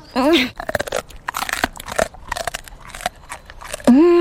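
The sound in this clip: Crunchy munching as a patient chews a bravery treat: a run of dry crackling bites and chews, with short voiced sounds at the start and end.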